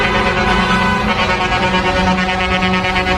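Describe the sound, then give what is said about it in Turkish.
Truck air horns honk continuously from a convoy of eight lorries joining a wedding procession along a city street in Adana, a loud, sustained blare of layered steady tones over rumbling engines. “8 kamyon şoförü bir çiftin düğün konvoyuna katıldı. Havalı kornaları da vardı.”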